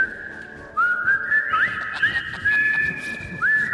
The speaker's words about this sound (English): And then I really whistle along to this.